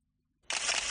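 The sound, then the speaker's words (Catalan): A camera shutter fires: one sharp mechanical click right after near silence, followed by a short burst of whirring noise. “Atenció, que Oliveros agafa la seva càmera i dispara.”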